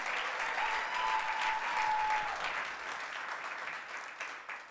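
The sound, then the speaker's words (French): A church audience applauds during a French-language service, with dense, steady clapping that holds for about five seconds and eases slightly toward the end. “Est-ce que quelqu'un peut acclamer cette parole”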